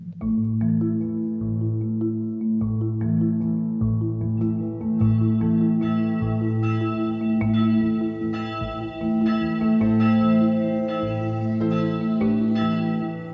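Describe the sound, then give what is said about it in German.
Church bells ring for the hours of prayer at a brick-red 1980s church on the Schwanberg near Kitzingen, a loud, steady peal of overlapping strikes with rich, sustained tones and no voices. “Viermal am Tag wird auf dem Schwanberg bei Kitzingen zum Stundengebet geläutet.”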